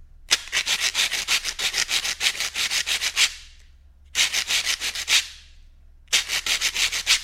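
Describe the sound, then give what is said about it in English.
Sandpaper wrapped around two wooden blocks being rubbed together, making many loud, rhythmic rasping strokes in three bursts separated by short pauses, with no voices. “This is the kind of sound my sandpaper on two blocks of wood makes. Listen.”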